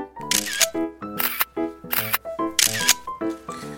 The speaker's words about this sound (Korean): 상장을 왜또 찍어?